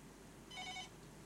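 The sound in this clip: A caller's telephone rings once in a brief electronic burst, a faint, steady trill lasting under half a second over a low background hiss.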